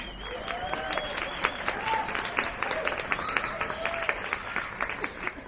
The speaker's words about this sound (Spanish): Los espectadores, encantados con su intervención, aplauden discretamente.